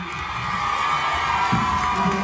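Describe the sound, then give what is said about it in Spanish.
A crowd cheers and shouts as a young man kneels to propose marriage, a loud, sustained roar of voices with higher shrieks rising out of it. “Se está arrodillando, la gente aplaude”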